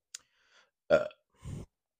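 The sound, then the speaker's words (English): Two burps follow a faint click: the first loud and abrupt, the second lower and more rumbling. “Man, 15 burps in a row. I don't know how this happens, but I don't even think about it. It just happens.”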